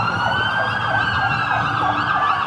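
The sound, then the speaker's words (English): Sirens of military and government vehicles rushing through city streets, loud overlapping wails sweeping up and down continuously over a low traffic rumble. “You saw military and government vehicles rushing through the streets. From my vantage point, it sounded like this.”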